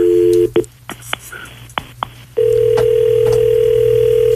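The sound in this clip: An outgoing telephone call: a short tone, then several brief dialing beeps and clicks, followed by a long, steady ringing tone that holds to the end.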